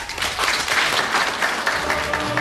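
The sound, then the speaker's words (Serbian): Dense, steady applause from an audience at the end of a 1988 book presentation, many hands clapping continuously and loudly at an even level for the whole stretch. “Ovaj aplauz iz 1988. godine upućen je Darinki Simić-Mitrović na kraju predstavljanja knjige Da Capo al Infinito.”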